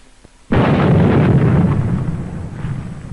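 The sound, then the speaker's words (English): A dynamite blast by Navy demolition crews clearing 50-foot ice ridges on a 1946 Antarctic expedition: half a second of quiet, then one sudden loud explosion that settles into a long, heavy rumble, fading slowly to the end. “They must blast the 50-foot ridges, clear the way to meet the expedition timetable.”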